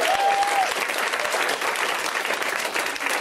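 An audience at a comedy show in Los Angeles breaks into steady, dense applause, with a short whistle near the start.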